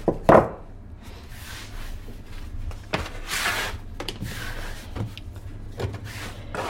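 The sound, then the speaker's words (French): Soft thuds and slaps of spelt-flour brioche dough being shaped by hand in a bakery, a few separate knocks against a surface over a steady low hum. “C'est de la brioche à la farine de petite épeautre. Je la mets en forme pour pouvoir la cuire tout à l'heure. Comme une pâte à modeler finalement.”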